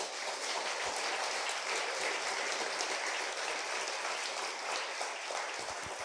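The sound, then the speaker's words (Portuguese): A church audience applauding during a sermon, a dense, even rattle of many clapping hands that holds at a steady, fairly soft level throughout. “Aplaudo o Senhor Jesus por isso.”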